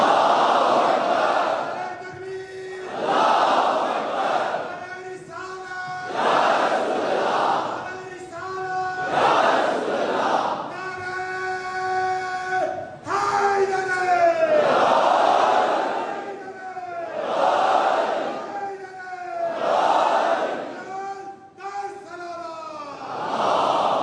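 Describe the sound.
A crowd chanting the takbir slogan, with many loud, repeated voiced shouts rising and falling in a steady rhythm as a mass of voices answers in turn.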